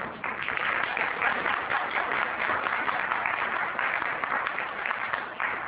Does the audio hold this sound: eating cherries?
no